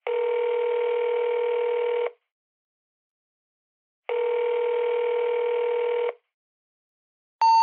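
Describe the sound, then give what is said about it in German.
Ringback tone on a call to a sanitary supplies company's service number: two long, steady, identical ring bursts separated by a silent gap, then a brief, higher tone starting at the very end, with no voices. “Sie rufen eine Servicenummer an und hören Folgendes.”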